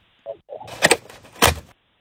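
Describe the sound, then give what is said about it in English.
A screen window on a house window slides open: a short knock, then two longer scraping, rattling slides, the second one louder, with silence on either side. “What is a secret sound? Opening a screen window on your house windows.”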